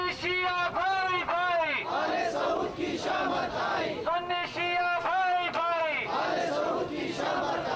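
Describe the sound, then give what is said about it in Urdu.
A protest rally crowd chanting slogans against the Saudi royal family and for Shia–Sunni unity: many voices in loud unison, repeating the same rising and falling chant phrases over a constant crowd roar. “اور انہوں نے آل سعود کے خلاف شدید نعرے لگائے۔ Rally میں اتحاد امت کے لیے شیعہ سنی بھائی بھائی کے نعرے بھی لگائے گئے۔”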